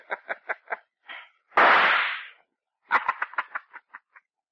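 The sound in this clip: A gunshot fired at the floor, one sharp, loud blast with a trailing decay, set among several shorter, quieter clattering bursts before and after.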